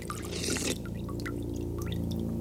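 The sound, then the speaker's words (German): Water in an underground cave lake: scattered small drips and splashes over a low, steady hum. “Ein See. Ein unterirdischer See in einer Höhle.”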